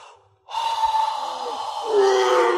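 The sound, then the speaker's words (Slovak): A deep, forceful breath from someone choking and struggling to breathe: one long, loud, airy rush lasting about two seconds after a faint, brief lead-in, with no talk. “No, treba mi ešte mocnejšie dýchnuť.”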